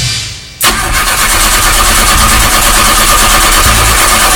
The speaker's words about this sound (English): If you've ever turned up your radio to ignore that sound, we need to talk. Your vehicle is not starting